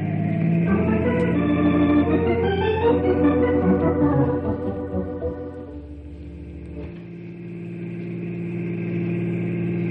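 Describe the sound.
A car engine labours during a chase after a U-turn, its hum layered with tonal harmonics that climb and shift in the first few seconds, then settle into a steadier, lower drone with no voices.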